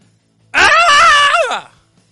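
A person imitates a scream with one drawn-out, high, wavering vocal wail. It lasts about a second and slides downward in pitch as it fades out.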